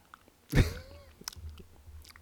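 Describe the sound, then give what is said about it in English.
A wet licking noise opens with one loud smacking burst, then trails into softer, irregular moist mouth sounds. “Do you hear that licking noise?”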